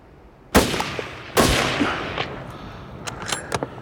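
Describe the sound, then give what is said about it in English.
Two loud rifle shots crack out during a hunt, less than a second apart, each trailing off in a long decaying rumble, followed by a few fainter sharp taps. “I heard that bullet hit that last shot.”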